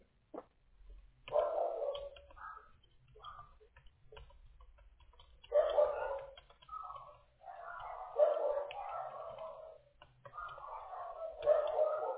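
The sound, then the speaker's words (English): Dogs barking at a mail carrier, heard over a phone call: a few loud, drawn-out yelping barks come in separate bursts, with quieter yaps and whines between them and no talk over them. “Excuse my dogs. I do apologize for that. They hate the mailman for some reason.”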